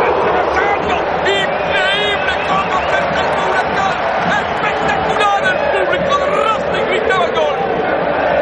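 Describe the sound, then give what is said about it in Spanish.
The crowd in a packed football stadium during a Racing match roars continuously in a thick, loud hubbub, with scattered shouting voices rising out of the steady din. “el estadio está a rebosar. Entre el público expósito mira serio a su alrededor.”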